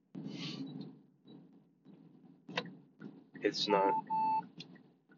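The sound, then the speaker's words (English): A vehicle beeps at its driver for no clear reason, a couple of short, steady electronic tones rising over a man's ongoing talk amid faint ticking and mechanical sounds. “I don't even know why my vehicle's beeping at me.”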